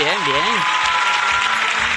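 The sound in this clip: Studio audience applause follows a brief voice at the start. Thick, continuous clapping from many people stays loud and even for the rest of the moment.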